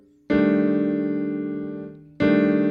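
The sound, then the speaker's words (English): A piano plays a rootless-voicing four chord in a blues, struck once and held as it slowly fades for nearly two seconds, then another full chord is struck sharply near the end. “So my blues would sound like this. Rootless voicings here. Here's my four chord.”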